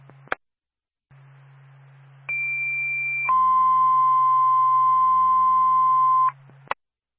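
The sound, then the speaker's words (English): A fire department dispatch tone over radio: a high steady tone lasts about a second, then a lower steady tone holds for about three seconds. A faint constant low hum runs underneath, with sharp clicks at the start and end. “Stand by for a tone.”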